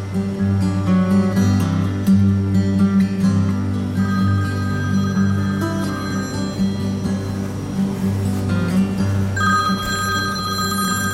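A mobile phone rings inside a small aircraft during a student pilot's flight lesson. The ringing runs continuously through the whole clip over a steady low drone.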